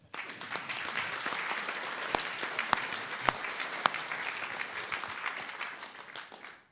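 Applause welcoming author Matthew Fort, introduced for his third travel book about a journey on a Vespa: a steady wash of clapping with a few sharper individual claps standing out, tapering off at the end.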